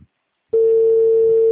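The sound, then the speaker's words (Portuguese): Telephone ringing tone on the line: after a brief near-silence, a single steady, pure mid-pitched tone sounds for about a second, then stops abruptly. “Tá ficando mudo, eu acho que atendeu, mas tá chamando ainda.”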